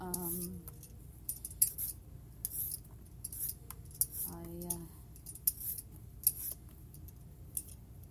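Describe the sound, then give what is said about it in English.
Faint, irregular scraping strokes come from a peeler working along giant carrots, short dry rasps repeating throughout, with a voice briefly murmuring twice. “We are just getting everything ready for putting in the vegetables. Well, not quite just. I'm just peeling the giant carrots.”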